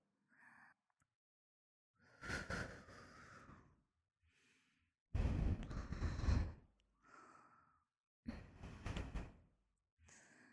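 Slow exhales breathed close to the ear: several soft, airy puffs of varying length separated by near silence, the longest and strongest one in the middle.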